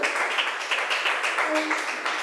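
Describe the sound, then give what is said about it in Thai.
Classroom students clap for a classmate who gave a correct answer, a dense, steady patter of many hands that keeps going without a break. “นักเรียนเก่งมากปรบมือให้เพื่อนหน่อย”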